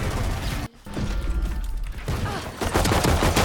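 Rapid, sustained gunfire and mechanical clatter from a team-based video game shooter run almost without a break. A brief dip comes early, then the dense, loud firing continues and swells again toward the end.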